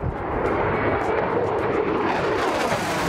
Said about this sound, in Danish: F-16 flyene, flyttede ind på flyvestationen Skrydstrup.